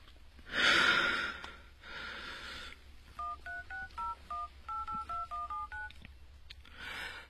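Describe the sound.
A telephone number is dialed on a touch-tone keypad after a deep, audible breath in and out: a quick, even run of many short, clear dual-pitch beeps, each one distinct, with no talk over them.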